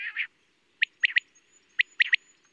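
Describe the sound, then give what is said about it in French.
A common quail calls in bright, high-pitched bursts. A short opening call is followed by two clear, quick three-note phrases, each crisp and liquid against a quiet background. “Nous avons entendu la caille, huit, huit, huit.”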